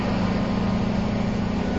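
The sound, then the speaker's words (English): A dump truck raises its bed to unload tons of dripping wet weeds fresh from a lake. A loud engine and hydraulic drone runs steadily with a constant low hum beneath it, and it does not change from start to end. “every day their trucks make multiple trips carrying tons of dripping wet weeds fresh from the lake. I'm being told to move away as the truck bed is raised.”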